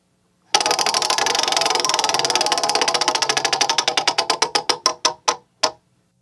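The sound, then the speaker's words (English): A prize wheel spins, its pointer ticking in a rapid clatter that gradually slows into distinct, widely spaced clicks before coming to a stop. “And now it's time to spin the wheel, and I'm going to spin it.”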